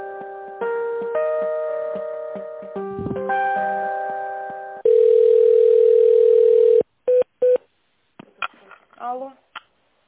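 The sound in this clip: Telephone tones while a business call is transferred: a stepped electronic hold melody, then a long steady tone and two short beeps, followed by a brief voice.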